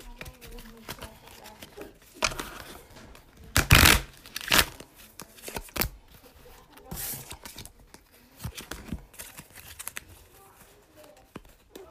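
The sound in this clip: Tarot cards are shuffled in a run of papery riffles and rustles, with a few sharper, louder bursts in the middle among softer shuffling.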